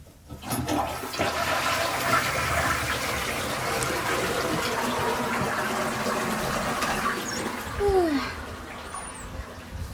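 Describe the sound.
A toilet flushes with a loud, steady rush of water that fills most of the ten seconds, swelling briefly near the end before easing off.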